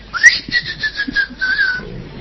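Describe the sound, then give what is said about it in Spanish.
A thin whistle, said to announce a mythical forest creature. It opens with a brief higher note, then holds a long, steady, slightly falling tone for about a second and a half over faint background noise. “Se anuncia con un chiflido ensordecedor”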